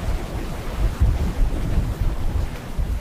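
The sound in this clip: Strong wind gusts through a spot where it always funnels straight across, a steady low, rough rumble buffeting the microphone, with heavier blasts near the one- and two-second marks and no voices.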